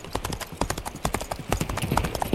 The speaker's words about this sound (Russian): Конь побежал крупной рысью